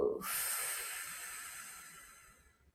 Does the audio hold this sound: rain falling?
no